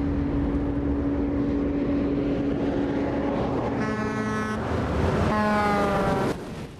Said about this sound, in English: As a huge juggernaut roars by, kicking up clouds of dust